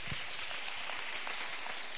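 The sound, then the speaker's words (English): Applause from an audience clapping for themselves, a dense continuous wash of many hands at steady loudness with no talk over it. “Put your hands together for yourselves. Clap for yourselves nicely.”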